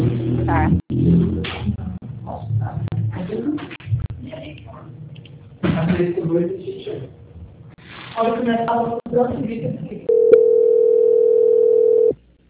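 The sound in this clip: A steady telephone tone during a call transfer, holding one even pitch for about two seconds at the end after a stretch of talk.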